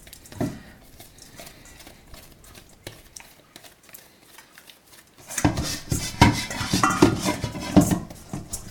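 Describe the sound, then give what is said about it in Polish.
Kneading dough in a bowl with flour and dry yeast: soft, sparse knocks at first, then a louder run of dense clattering, slapping and knocking over the last few seconds. “Cały czas wyrabiam i zagniatam ciasto. Zbieram do niego resztkę mąki i sypkich drożdży i zagniatam ponownie.”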